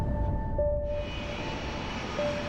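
An aircraft engine drones steadily as a plane prepares for takeoff. The loud, continuous roar carries a thin, high tonal whine that holds without a break from start to finish.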